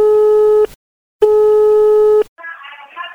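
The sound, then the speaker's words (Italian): A telephone line tone sounds while a prank call is placed. Two loud, steady, mid-pitched tone bursts are separated by a brief silence, and a shorter, fainter sound follows. “E con queste motivazioni noi andremo a chiamare un po' di gente in Toscana. Sentiamo un po' come risponderanno, come la prenderanno.”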